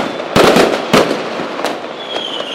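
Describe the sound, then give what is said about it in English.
Fireworks exploding on fireworks night in the UK: two loud, sharp bangs close together, followed by fainter crackling pops as the noise trails off. “here in the UK it is fireworks night this week”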